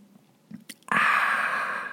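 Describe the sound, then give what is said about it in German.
Someone takes a quiet sip of a drink with a few soft mouth and swallowing noises. A sudden, long, loud, breathy exhale of satisfaction follows and holds steady until the end. “ich trinke in der Zeit einen Schluck. Kennt ihr die Leute, die irgendwie was trinken und danach erstmal so richtig genüsslich dieses...”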